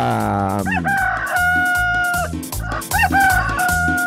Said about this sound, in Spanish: ¿Cómo estamos, gallito? Canta, gallito, canta.